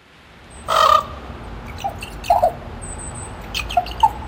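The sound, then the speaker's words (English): Ravens call in a rainforest: a louder croak early on is followed by a few fainter, scattered calls over a quiet, hissing background. “Yeah, that's the sound of ravens in the Great Bear Rainforest.”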